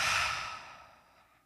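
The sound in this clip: A single deep breath pushed out through the mouth during a grounding exercise, loud and airy at the start and then fading smoothly into silence.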